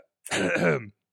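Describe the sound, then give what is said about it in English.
A single short throat-clearing cough, a loud rasping burst of under a second that stands alone between silences. “I'm literally coughing on something.”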